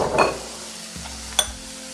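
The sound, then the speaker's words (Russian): Food in a spicy marinade being stirred in a pan: a soft scrape near the start and one faint clink later, both quiet against a low background hiss. “Перемешиваем.”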